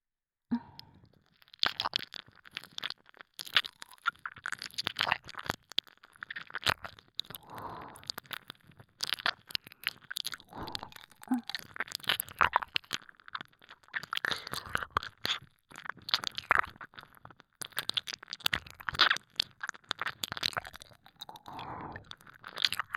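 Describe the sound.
Wet chewing and crunching of food, with many bites and mouth sounds in a steady, irregular stream. Fairly quiet throughout, with no talk.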